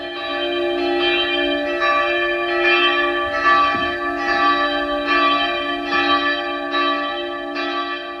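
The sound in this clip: A church bell cast from artillery shell metal sourced from Ukraine rings with many steady, evenly spaced strikes. Each strike blooms into a rich, sustained metallic tone that overlaps the next, and no voices are heard.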